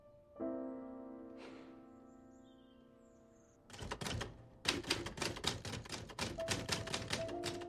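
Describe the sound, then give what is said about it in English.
Rapid clacking of a typewriter, with many sharp keystrokes in an uneven rhythm, follows a sustained, steady tone that fades before the typing begins. “Gray-haired Alice types.”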